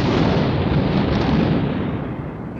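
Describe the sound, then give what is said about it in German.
Rolling thunder from an approaching thunderstorm: a loud, continuous low rumble with broad noise that lasts throughout and eases slightly toward the end. “Nee, lieber nicht, da zieht schon wieder ein Gewitter auf.”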